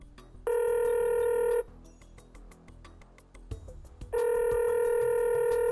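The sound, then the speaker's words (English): A telephone rings while a call is placed to a guest. Two long, loud electronic rings are separated by a pause filled with faint clicks. “Dial him up.”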